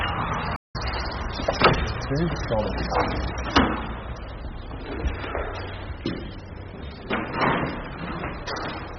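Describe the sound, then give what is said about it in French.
An old Gascon door lock in a tiny house is worked open the reverse way, with a few clunks and clicks of the mechanism and door heard under steady talk. “C'est une vraie serrure gasconne, il faut ouvrir à l'envers.”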